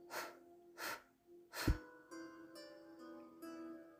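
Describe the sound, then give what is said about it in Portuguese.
Soft, airy breaths during a guided breathing exercise, with a few quiet separate breaths drawn and released. They are faint and short, and no one speaks over them. “Então você inspira, segura e solta.”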